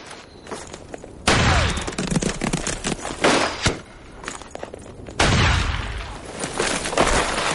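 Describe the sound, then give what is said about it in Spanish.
Shotgun blasts as a man fires at approaching riders from behind his horse in a Western setting. A few loud, sharp reports cut through a rough, noisy background, with the strongest bursts well apart and long rumbling tails. “El hombre coge su escopeta, se coloca tras el caballo y dispara contra ellos.”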